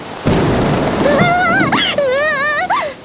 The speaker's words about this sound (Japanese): 天気予報外れだな。 ということは通り雨でしょうか。